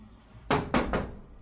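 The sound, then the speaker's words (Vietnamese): Three knocks on the wooden door of a roadside inn, sharp and fairly loud, landing in quick, evenly spaced succession with no voices around them. “Ngay lúc này phía cửa dịch trạm đột nhiên có tiếng gõ.”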